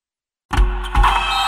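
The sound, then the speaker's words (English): Motorized blackout shades whir into motion after a moment of silence, a steady mechanical hum with a low drone and a faint tonal whine that continues without pause to the end. “Oh, no, I meant those blackout motorized shades.”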